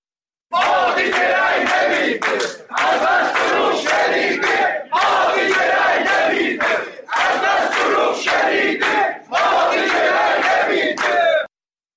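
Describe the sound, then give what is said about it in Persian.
Protesters at a social security office in Tabriz chant election slogans in loud unison, shouting five rhythmic phrases separated by brief pauses. “در مورد تبریز صدای تجمع کنندگان رو میشنم”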